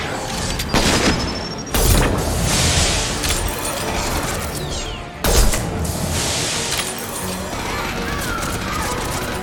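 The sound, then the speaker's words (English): Heavy machine guns fire from both arms of a giant mech in a video game: a dense, continuous barrage of gunfire, with two heavier booming bursts standing out above the steady roar. “We have the giant mech.”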